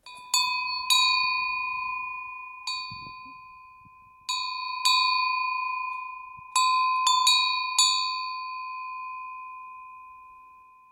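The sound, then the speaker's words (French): A metal cowbell with two notes a semitone apart is struck many times in an irregular rhythm. Each strike gives a bright, clear ring that sustains and slowly fades, with no other sound. “cette forme est souvent reprise pour les, cloches de vache. Là, on a vraiment un truc euh, spécifique aux animaux, et je l'aime bien parce qu'elle a deux notes.”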